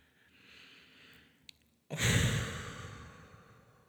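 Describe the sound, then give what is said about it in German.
Deep breathing during a guided relaxation: a soft, quiet inhale, a tiny click, then a loud, long sighing exhale that gradually fades. “Und einmal tief einatmen. Und mit dem Ausatmen alles loslassen, was dich noch beschäftigt.”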